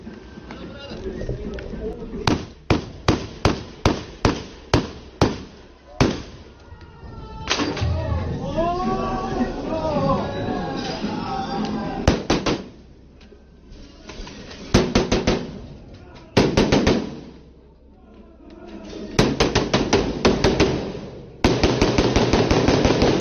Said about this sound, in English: He begins firing as he approaches.